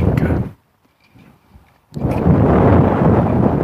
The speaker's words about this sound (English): I hope you're not hearing this wind, but it feels delightful.